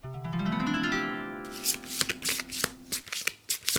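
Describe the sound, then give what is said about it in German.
Tarot cards being shuffled by hand: a sustained rushing riffle of flicking cards gives way to a quick series of sharp taps and snaps as the deck is squared and mixed again, with no voices. “Beim Mischen sind mir aus meinen Karten 2 rausgeflogen und die habe ich natürlich gleich mitgenommen.”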